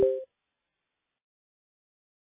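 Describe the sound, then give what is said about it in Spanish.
A voicemail tone sounds as a single brief electronic beep at the very start, followed by silence. “Please leave a voice note after the tone.”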